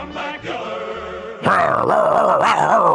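A dog sick with rabies growls in a low, throaty rumble that swells louder partway through into harsher, wavering snarls.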